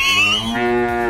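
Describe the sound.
Cow mooing in a jingle, a single loud, brief bellow with a rich, harmonic tone that shifts slightly midway.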